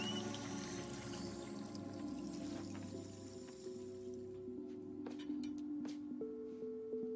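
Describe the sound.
Water runs faintly from a tap at a hotel bathroom sink as a man washes his hands. The soft steady flow fills the first half and then stops, followed by a few small knocks.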